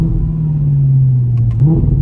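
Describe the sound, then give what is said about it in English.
A 2014 Audi R8 sports car, the facelifted model, gives off a deep, loud engine rumble that holds nearly steady and lifts slightly in pitch toward the end, with a few faint ticks and no voices. “So for those that don't know, this is my 2014 Audi R8. It's the facelifted model”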